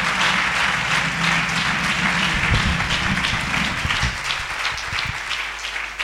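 A church audience applauding to acclaim God, with steady, dense clapping from many hands that eases slightly toward the end.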